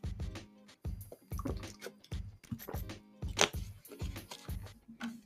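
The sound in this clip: Water being poured and drunk: faint liquid trickles and many rhythmic gulping swallows follow one another steadily.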